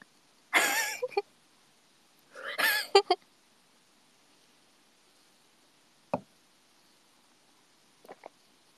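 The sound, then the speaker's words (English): A squeaky, cheap $20 chair creaking: two longer rasping creaks early on, then a couple of short, faint clicks later amid near silence. “It's just a squeaky $20 chair, okay?”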